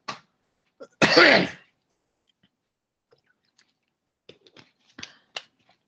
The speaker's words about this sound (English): Can't seem to get my throat clear, but it is what it is.